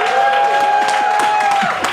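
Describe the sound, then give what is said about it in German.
Audience applause for a band's bassist, with scattered claps over a sustained held tone that stops shortly before the end. “Mal einen Applaus für unseren Christoph Erber.”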